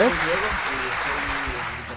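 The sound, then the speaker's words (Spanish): Brief applause from the audience at a musical evening at El Papayal, a steady crackle of clapping with a voice heard at the very start. “Vaya, un aplauso, Majo.”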